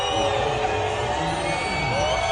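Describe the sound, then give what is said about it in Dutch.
Families in a theme park crowd boo after an announcement that parades and rides are cut back because of a staff strike. The crowd noise is loud and steady, a continuous wash of many voices throughout. “Families hoor je na de aankondiging in het park boer roepen.”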